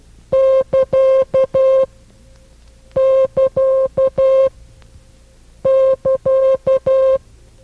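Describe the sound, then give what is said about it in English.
Morse code sign for the beginning of a transmission, tapped as a steady mid-pitched tone in a dash-dot-dash-dot-dash pattern. The five-element group is sounded three times with short pauses between, clean and loud. “It is used to indicate the beginning of a transmission and sounds like this.”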